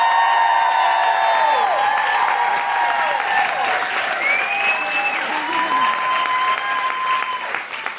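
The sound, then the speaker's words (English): A live audience applauds and cheers as a musician is welcomed, producing loud, sustained clapping with high whoops rising above it, and the noise thins out near the end. “Please put your hands together and make incredible woo-hooing noises for the wonderful Ellie Dixon!”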